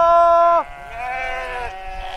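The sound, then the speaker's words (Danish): Sheep in a flock bleating: a loud, sharp bleat cuts off abruptly, followed by a longer, lower, wavering bleat that carries on to the end. “Der er virkelig mange får.”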